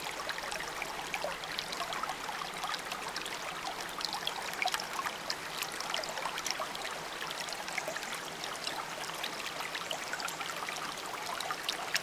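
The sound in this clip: A clear stream runs over mossy rocks, producing a faint, continuous trickling and babbling of water that stays even for twelve seconds with no voices.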